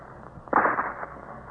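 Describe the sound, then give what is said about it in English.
A single distant rifle shot from someone out hunting: a sharp but muffled crack that decays into a dull, rumbling tail, heard on its own without talk. “isn't that a rifle, Dad?”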